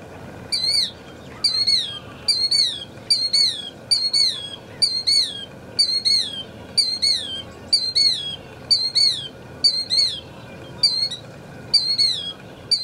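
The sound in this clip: Calls from a large bird flock: sharp, high chirps and squawks repeat in rapid, even bursts about once a second throughout, over a faint low rumble.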